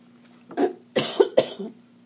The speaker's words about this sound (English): Sorry. Whew, sorry about that. A little bit of a coughing fit there.